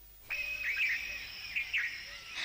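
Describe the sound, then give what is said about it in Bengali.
Two drongos call with short, bright, chirping notes in a couple of brief bursts over a thin steady high tone. The calls are faint and there is no talk. “বাহ, ফেঙে দুটি কেমন হাওয়ায় পাখনা মেলে লুটুপুটি খাচ্ছে, যা উড়ে গেল।”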